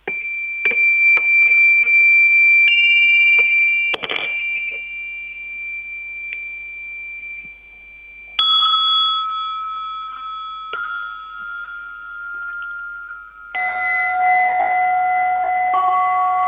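Buddhist altar bells are struck four times, each a different pitch, every strike giving a clear metallic tone that rings on and slowly fades before the next bell sounds.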